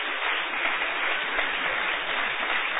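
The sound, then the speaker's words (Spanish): A church audience gives long, sustained applause: a dense, steady wash of many hands clapping without a break for the whole clip. “Denle un aplauso largo a Cristo, que Él se lo merece.”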